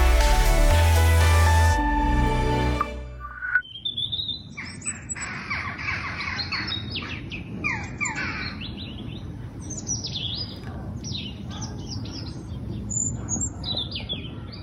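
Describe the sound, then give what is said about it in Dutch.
Robins and jackdaws call in a lively mix of many chirps, tweets and sharper calls over a steady low background, following a loud opening of sustained tones in the first few seconds. “We vonden dit een erg prettig geluid om de uitzending mee te beginnen. Roodborsten en kauwtjes.”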